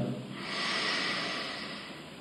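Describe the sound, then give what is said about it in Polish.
A deep, slow inhale through the nose during a relaxation exercise, a smooth breathy hiss that swells and holds for about two seconds, heard alone without talk. “Weźmy głęboki, głęboki wdech nosem.”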